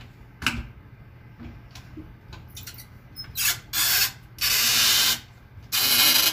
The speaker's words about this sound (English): Now let's tighten that down.